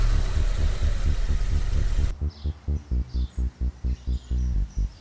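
A car engine runs as the car drives off, first with a steady dense rumble, then settling into a regular pulsing throb.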